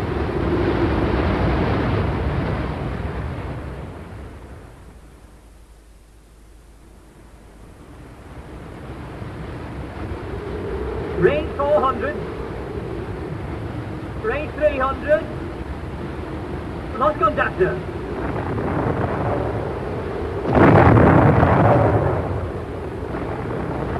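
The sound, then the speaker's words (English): Depth charges explode underwater during an attack, heard as heavy, rumbling surges of noise over a continuous roar, with voices speaking in between. “Only 8 patterns of depth charges left. That's the real rub. After this attack, there'll be only 7. Azdik, prepare to attack.”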